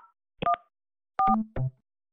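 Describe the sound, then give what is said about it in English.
Telephone keypad tones on a call to a health and rehabilitation center's phone line: a few short electronic beeps in two quick clusters, heard alone with silence between them. “To reach a patient room, please dial the room number, then add a one.”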